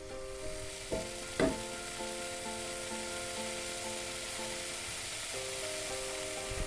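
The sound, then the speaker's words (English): Diced bacon sizzles in a pan with butter and flour for a green pea soup, giving a steady, fairly faint frying hiss broken by a couple of brief stirring clinks near the start. “we're dicing a bit more of the bacon. We're adding a bit of butter and some flour, and we're doing this separately in a pan, and then we're going to add it into the pot.”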